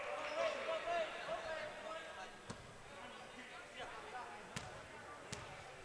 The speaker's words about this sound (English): Couple deliberate dribbles, and the shot is up and good.